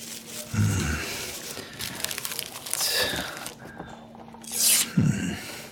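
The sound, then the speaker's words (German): A paper banknote being torn: a few short, faint bursts of crinkling, ripping paper, separated by quiet gaps. “Sie zerreißen das Geld? Nur ein kleines Stück.”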